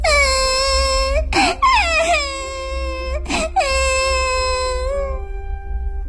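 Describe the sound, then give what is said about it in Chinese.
Crying from a doll in a children's classroom story: three drawn-out, high, tonal wails with short breaks between them, loud and alone. “就在这个时候，洋娃娃劳拉突然哭了起来，她看起来那么伤心。”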